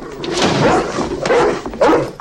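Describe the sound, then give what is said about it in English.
A dog barks at home, giving a few sharp, loud barks over a dense, noisy background with some thumping. “At home, they carry Star and Laddie in, but Nanook is there barking.”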